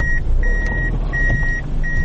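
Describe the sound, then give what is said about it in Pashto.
Reversing beeps from a black Fielder car backing up to park on a road: a steady high tone pulses on and off several times over a continuous low engine rumble. “دا د سړک پر سر خپل تور رنګ فیلډر موټر شاو مخته کوي تر څو قانوني یې ودروي.”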